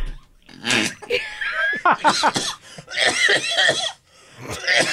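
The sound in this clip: A coughing fit from something going down the wrong windpipe brings a run of sharp, spluttering coughs and throat-clearing bursts in uneven clusters, separated by short pauses, with a voice mixed in.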